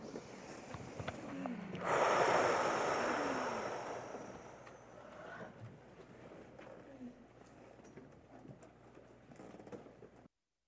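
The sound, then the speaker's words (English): A single long breath is taken during a meditation practice session. It starts as a strong, airy rush, then slowly tapers off into quiet background hiss. “Take a breath.”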